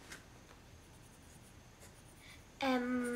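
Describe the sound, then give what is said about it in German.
A pen scratches faintly as someone writes down a list of errands and appointments, light strokes in short bursts before a steady tone cuts in near the end. “Klar. Also hör zu. Gemüse zum Biomarkt. Badminton immer mittwochs beim SSV Frankfurt. Schreib's auf.”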